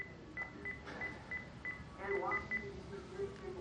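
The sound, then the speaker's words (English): Keypad tones from a cordless phone being dialed in a kitchen: a quick series of short, clear electronic beeps in a fairly even rhythm, some tones differing in pitch, over a quiet background. “He picks up a cordless phone and dials.”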